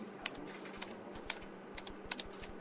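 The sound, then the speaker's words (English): A job website address is typed on a computer keyboard as a quiet, irregular run of many light key clicks, a few of them sharper than the rest, with no talk. “Okay, so just type the job website address here.”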